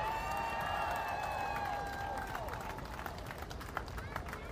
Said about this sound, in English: the first phalanx of marchers in this year's 2010 Mermaid Parade. Welcome to Coney Island. Bring it on. The Mermaid Parade is underway!